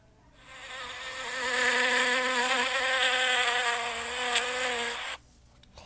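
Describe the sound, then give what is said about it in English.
A bee flies past the ear with a steady, loud, droning buzz rich in harmonics. The buzz swells over several seconds, holds, and then stops abruptly. “So guys, that one was a bee.”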